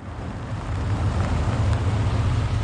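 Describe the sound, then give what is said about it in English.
A red pickup truck driving through city streets: a steady, low engine rumble with broad road noise that swells slightly after the first moment and then holds even. “Daytime, and Brian's driving his red pickup truck through the city.”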